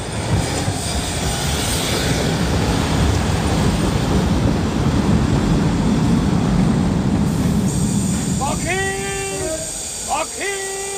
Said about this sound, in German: da ist er ja, der Zug.